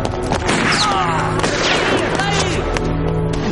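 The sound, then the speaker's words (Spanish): Gunfire in a war drama film as a mustached man shoots at soldiers while fleeing. Loud shots burst within a dense, continuous mix of other scene sound. “Un hombre con bigote dispara contra los soldados mientras huye de ellos.”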